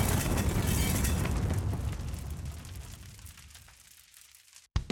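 Hand grenade explosion: a loud, broad rumbling blast that starts at full strength and slowly fades over about four seconds, then drops out briefly before a sharp click at the end.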